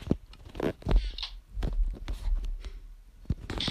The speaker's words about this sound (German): Okay, verrottetes Fleisch esse ich jetzt erstmal.